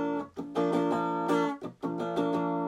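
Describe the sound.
Clean-tone electric guitar, played while demoing a Wampler Ego Compressor pedal: a few ringing, harmonically rich strummed chords with short gaps between them, steady and moderately loud, with no voices.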